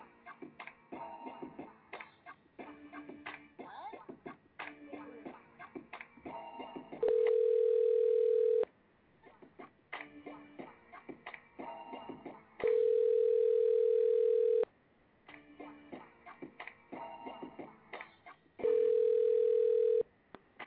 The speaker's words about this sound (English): Dialing out.